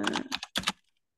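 Quick typing on a computer keyboard as a chat message is entered, with a few rapid bursts of clicking keystrokes over under a second, then near silence.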